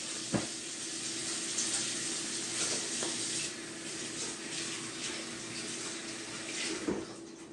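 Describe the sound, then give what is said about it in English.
A water tap runs steadily as someone washes their hands in a kitchen while making Trinidadian black cake. The even, hissing stream stays moderate throughout, with a few faint knocks and splashes. “let me wash my hands.”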